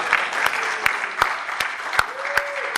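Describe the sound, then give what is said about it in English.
Audience applause welcoming three guest authors of hard-boiled crime fiction: steady, dense clapping from a crowd, fairly loud, with a few sharper individual claps standing out. “please let's give a round of applause for the three biggest names in hard-boiled literature.”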